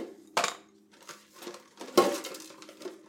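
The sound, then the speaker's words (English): Espresso blend coffee beans are scooped into a small espresso cup on a digital scale. Two louder rattling pours stand out among lighter clicks and clinks of beans against the cup. “So we're going to take two different scoops of coffee.”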